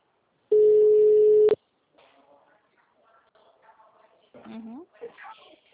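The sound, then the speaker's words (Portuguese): Telephone tone after a call drops: one loud, steady mid-pitched beep lasting about a second, followed by soft handling noises and faint talk. “Oi. Ah, caiu a ligação.”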